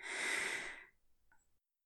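A single deep breath is drawn in a calm relaxation setting, a soft, airy rush of close breathing followed by a fainter brief release, otherwise silent.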